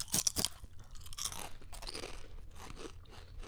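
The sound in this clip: Crunching of a sour cream and onion flavoured snack: a few sharp, crisp bites at the start give way to steadier, softer chewing and munching, with no talk.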